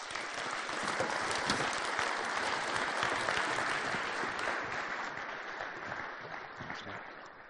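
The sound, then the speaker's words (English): Steady applause from an audience welcoming a speaker at a community gathering. The dense clapping holds at an even level throughout and thins slightly toward the end. “Would you please join me? Let's put our hands together and welcome Carl Medeiros.”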